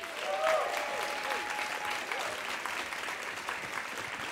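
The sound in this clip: Audience applause for a guest being introduced at a live show in Portland: a dense, steady wash of clapping that swells briefly near the start and then holds at an even level for the whole clip.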